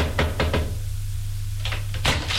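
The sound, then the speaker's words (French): Knocking on a door: a few sharp raps in quick succession, a pause, then another short group of knocks, all over a steady low hum. “frappe à une porte”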